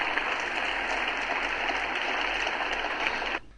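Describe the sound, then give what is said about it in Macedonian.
Thunderous applause interrupts Ursula von der Leyen's speech on a new vision for Europe. It is a steady, dense wash of clapping that holds for about three seconds and then cuts off abruptly. “Говорот на Фондер Лајен за новата визија на Европа беше прекинуван неколку пати со громогласни аплаузи.”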